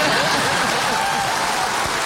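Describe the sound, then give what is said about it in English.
Audience applause after an actress mentions Wales, a dense, steady wash of clapping that holds at an even loudness throughout with no talk over it. “Well, actually, you can clap. Wales!”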